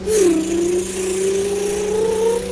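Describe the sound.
A truck engine drones while driving in a video game. The mid-low hum is loud and constant, dips briefly at the start, then slowly climbs in pitch.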